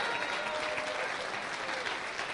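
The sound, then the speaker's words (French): A church audience applauds to acclaim the Lord during a service. Dense, even clapping continues steadily throughout. “Est-ce qu'on peut acclamer le Seigneur en quelques instants?”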